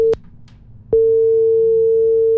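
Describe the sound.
Telephone busy signal as a call fails to connect: a brief click, then a loud, steady mid-pitched tone that runs unbroken to the end over a low hum.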